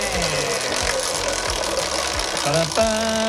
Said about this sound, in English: Do you want us to do a big spin or a little spin to choose the category? Please have a big spin. Big spin!